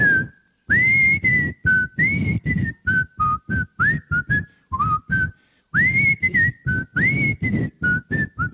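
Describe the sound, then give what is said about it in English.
A person whistles a tune in many short, clear, bright notes, grouped into quick phrases with brief gaps between them. The whistling is loud and alone, with no talking. “If I sit up here and whistle this right here,”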